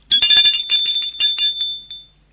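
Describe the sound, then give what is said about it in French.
A doorbell rings at a front door with a bright, rapid metallic trill in two quick bursts, then one short final ring that fades away. “Enfin, 10 heures arrivent. L'on sonne à la porte.”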